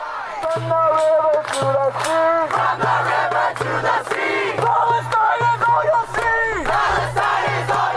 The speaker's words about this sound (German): Wir haben hier nochmal einen Mitschnitt der Proteste. Das ist von außerhalb der Columbia University von vor etwa 10 Tagen.